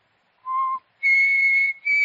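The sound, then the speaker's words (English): A person whistles three clear notes with nothing else heard: first a short lower note, then a longer sustained note at a higher pitch, and finally a brief return to that higher pitch. “I just whistled.”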